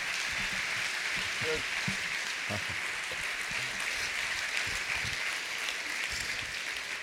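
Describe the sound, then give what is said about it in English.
Audience applause welcoming a guest speaker at a church service: steady, dense clapping that holds at an even level throughout. “So would you guys go ahead and give Kim a warm welcome?”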